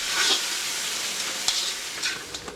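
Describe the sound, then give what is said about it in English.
Ingredients sizzle and fry in a wok on a two-burner stove as they are stirred, a steady bright hiss broken by a few light scraping clicks. “He puts ingredients into a wok that sits on top of a two-burner stove and stirs.”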